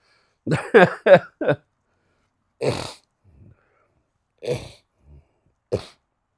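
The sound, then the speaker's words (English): Snorting and throat clearing from a person with a clogged nose: a quick run of four harsh snorts, then three more single snorts spaced a second or so apart, with faint sniffs between. “Oh, sorry for all the snorting, guys. I'm a little clogged up this morning.”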